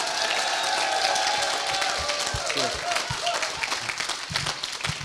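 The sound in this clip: An audience at a church meeting applauds with dense, steady clapping. Voices and shouts rise over the clapping throughout.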